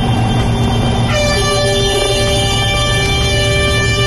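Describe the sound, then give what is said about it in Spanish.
Vehicle horns blare nonstop during a tractor protest in Logroño, La Rioja, several loud sustained tones overlapping into a dense, brassy chord, with the mix of pitches shifting a little after the first second. “Este es el sonido de esta mañana, de nuevo con tractoradas en La Rioja.”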